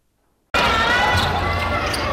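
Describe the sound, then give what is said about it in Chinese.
Basketball dribbling on a court at a youth and family tournament with school teams, starting abruptly after half a second of silence, then steady, dense crowd noise and voices running under the bouncing to the end. “篮球场上传来运球声与喝彩声，球员在场上尽情挥汗拼搏，展现高昂斗志。”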